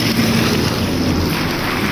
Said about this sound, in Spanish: Está lleno de agua ahí ese lugar. La verdad que es lamentable, ¿no? Y vemos cómo está corriendo el agua.